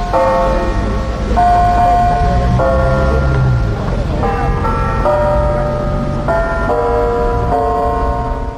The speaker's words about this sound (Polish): Jeszcze pieśń maryjna w kurantach podkreśla, pod jakim wezwaniem jest nasza świątynia.